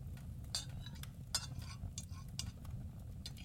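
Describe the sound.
Faint cutlery sounds as a knife is used, with light clinks and scraping taps scattered irregularly over a low, steady background rumble.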